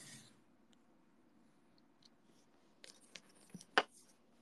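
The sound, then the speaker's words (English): Soft cutting as paper pieces are cut out, including piece E20 from page 7: mostly quiet at first, then a few faint snips and scrapes cluster near the end, topped by one brief, sharper click. “I'm gonna need to cut some pieces.”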